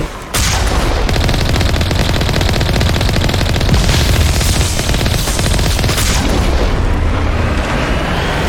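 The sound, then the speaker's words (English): Gunfire and booming blasts from the video game Mass Effect form a dense, loud barrage of rapid shots. It starts after a brief moment of quiet and continues without a break to the end. “Just gonna generally shoot in the overall direction.”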